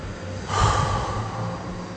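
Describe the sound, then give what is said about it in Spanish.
A deep breath drawn in and let out through the mouth during a relaxation exercise: one soft, airy rush that swells and then trails off slowly, with no talk over it. “De nuevo, inspira profundo y exhala por la boca.”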